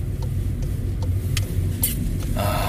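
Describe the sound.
Car engine rumbling while driving on a road: a steady, loud, low drone with road noise running throughout and a brighter hiss rising near the end. No talking.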